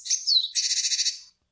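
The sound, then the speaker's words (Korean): Great tit song in two parts: a short group of high, sharp 'pee-chee' notes, then a quick string of about nine buzzy, evenly spaced 'chi' notes. The string softens and stops, leaving a brief silence. “네, 그 중에서 바로 이 문장입니다. 저자가 박새의 문장이라고 주장한.”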